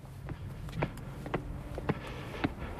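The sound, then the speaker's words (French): Footsteps climbing the steps into the basilica of the Sainte Thérèse de l'Enfant Jésus sanctuary: a few soft, evenly paced treads over a low steady background hum. “On monte les marches.”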